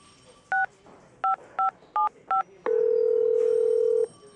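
Touch-tone telephone number being dialed: five short dual-pitched keypad beeps in an uneven rhythm, then one long, steady lower tone lasting over a second. No voices.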